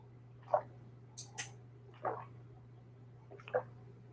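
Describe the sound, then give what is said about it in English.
Someone drinks down a glass of water. A few faint, wet swallowing gulps are spaced apart, with small clicks between them, over a low, steady hum. “I have a glass of water. I'm honestly just gonna drink it down.”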